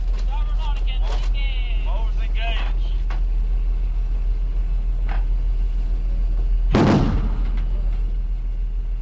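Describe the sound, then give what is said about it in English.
A starboard Bofors gun firing aboard a naval ship: one loud, sharp blast with a low rumbling tail near the end, after a short stretch of talk, over a steady low drone. “Bofors and starboard Oregon, engage.”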